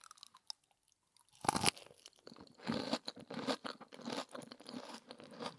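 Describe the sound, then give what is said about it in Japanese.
A crunchy bite into bacon-wrapped asparagus. After a quiet moment comes one sharp, loud crunch, then a run of steady, moist chewing crunches that continues to the end. “でも多分いい音しそうなアスパラのベーコン巻き食べてみよう。”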